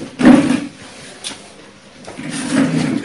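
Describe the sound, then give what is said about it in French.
Chairs being dragged across a floor, two rough scraping passes, the first short and the second longer, at moderate loudness with quieter stretches between them. “ne tirez pas les chaises, portez les chaises. Quand vous tirez, ça fait des bruits.”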